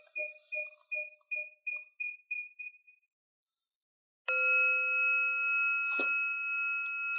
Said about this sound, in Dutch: Je zal telkens het belletje horen.